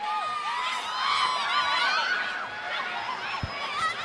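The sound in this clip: A large crowd cheers and whoops at a concert: a dense, steady roar of many voices with high shouts rising above it, sustained for the whole stretch.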